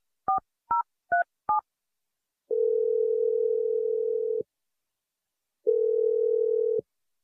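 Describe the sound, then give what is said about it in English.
Four quick touch-tone beeps as a phone number is dialed on a telephone, then two long, steady ringback tones separated by a silent pause, the second ringback tone shorter than the first. “I'm dialing her number right now.”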